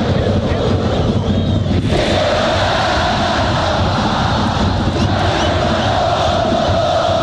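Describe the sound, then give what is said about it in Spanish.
A football crowd at Estadio Santa Laura roars during a Colo Colo Copa Chile match, a loud, continuous wash of massed voices with no distinct chant breaking through, sustained at an even level throughout. “Pastrán se le escapa el balón y escuchamos al público acá en el Santa Laura.”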